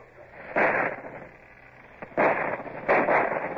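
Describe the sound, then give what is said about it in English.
Cannon fire from a ship's starboard guns: three heavy, booming blasts, each with a short rumbling tail, rising out of a steady low background noise. “Starboard guns! Fire as your guns bear! Steady aim!”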